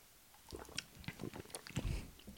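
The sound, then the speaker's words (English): Someone drinks a soft drink made to rival Sprite. Faint, wet mouth sounds and small gulps form an irregular run of soft, squishy pulses. “All right, let's drink it.”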